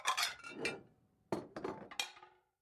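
Glass, plates and cutlery clink faintly as a table is set with knife, fork, spoon, glass and plate. Several light, bright chinks and taps come in irregular clusters with short pauses between, and no talk.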